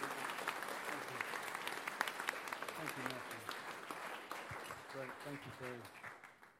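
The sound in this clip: An audience claps to welcome a speaker at a morning gathering. The applause is a faint, steady patter of many hands that holds throughout, and a voice speaks over it near the end.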